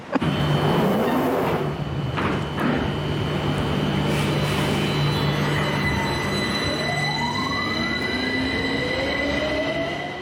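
A London Underground train running: a loud, continuous rumble of wheels on track, with high, drawn-out metallic wheel squeals that rise and shift in pitch throughout.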